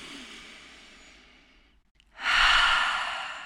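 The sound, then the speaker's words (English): A deep breath through the nose during a guided relaxation with eyes closed: a long, soft airy breath fades out, a brief pause follows, then a louder, fuller breath swells in and holds steady. “taking a deep inhale in through your nose”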